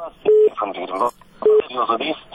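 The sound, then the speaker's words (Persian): A telephone line connects a caller on a radio call-in program: two steady electronic beeps, each lasting about a fifth of a second, alternate with bursts of muffled voice sound over the line. “حالا شنونده را از طریق تلفن بگیریم.”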